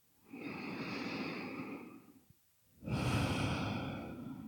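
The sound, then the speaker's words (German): Two long, deep breaths during a guided relaxation exercise, each a soft, airy rush of air with a short silent pause between them. “Dann nimm hier ein paar tiefere Atemzüge ein und aus.”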